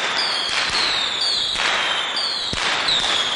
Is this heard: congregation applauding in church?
no